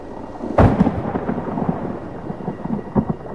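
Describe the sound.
Thunder from lightning outside: a sharp crack opens, then a low, rolling rumble continues with a few softer bursts.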